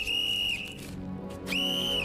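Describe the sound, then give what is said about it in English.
A whistle blown in two shrill, steady blasts separated by a short pause; the first is brief and the second holds loud and level to the end. “blows the whistle”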